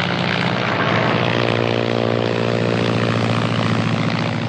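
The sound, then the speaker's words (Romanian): A propeller airplane comes in to land, its engine giving off a loud, continuous droning hum with a steady buzzing pitch throughout, and no voices. “A aterizat! A aterizat! Extraordinar! A executat aterizajul ca un pilot încercat!”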